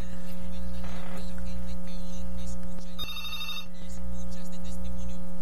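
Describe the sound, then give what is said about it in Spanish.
Telephone ringing for an incoming call: one short, bright electronic ring burst in the middle, over a steady low mains hum and faint background noise. “Tenemos una llamada.”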